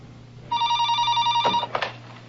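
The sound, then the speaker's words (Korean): A telephone rings during a call: one sustained electronic ring burst with a bright, layered tone, followed by a few quick clicks and clatter as it stops. “그리고 제인에게 전화를 걸지요.”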